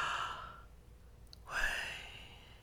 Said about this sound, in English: You breathe in. You breathe out. You breathe in.